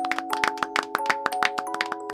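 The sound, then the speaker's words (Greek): Applause from a small group greeting an arrival at a house after a celebration. Many brisk, slightly irregular claps land over steady sustained tones, moderately soft. “Μόλις τον είδαν, χαμογέλασαν και τον χειροκρότησαν.”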